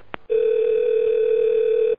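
A telephone ringback tone sounds on a call to a taxi service. A faint click comes first, then a single loud, steady, continuous tone holds for well over a second before cutting off abruptly.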